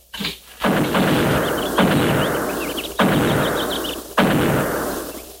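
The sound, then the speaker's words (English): Buffalo guns fire in several heavy, booming shots spaced about a second apart. Each shot is a sharp report followed by a long, rumbling tail, with no voices. “Buffalo guns. That's one sound they can't muffle.”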